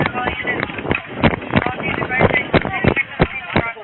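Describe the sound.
A sheriff's deputy runs toward Pulse Nightclub carrying a stretcher: many rapid, heavy footfalls in a steady rhythm, with wind buffeting the microphone and a continuous rushing noise underneath.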